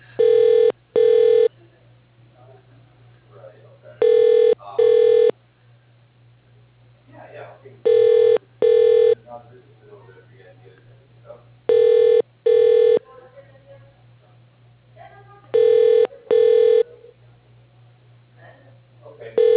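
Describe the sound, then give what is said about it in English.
Telephone ringing on an office extension line, a repeating double-burst ring tone that cycles steadily at an even pace over a constant low hum, fairly loud and clear. “For Francisco Medina, dial... Please wait a moment.”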